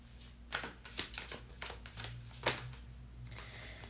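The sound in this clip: Tarot cards being shuffled: many quick, papery riffles and soft slaps in an uneven rhythm, fairly quiet, with no voices.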